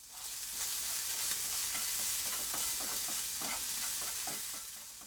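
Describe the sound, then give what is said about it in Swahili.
Prawns frying in a pan over low heat, a soft, steady sizzle dotted with many small crackles and the scrape of stirring throughout, fairly faint and without talk. “Kisha kaanga kamba kwenye moto wa chini hadi wabadilike rangi ya maziwa.”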